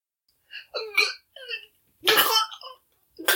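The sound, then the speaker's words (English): A run of harsh, strained choking coughs and throat rasps from someone with chewy food stuck in their false teeth, in short irregular bursts with one loud, hoarse burst in the middle. “I think I'm choking.”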